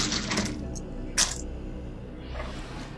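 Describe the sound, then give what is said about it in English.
Metal dice are rolled, giving a few bright metallic clinks and rattles over steady background noise, with people talking underneath. “Let's roll a metal dice.”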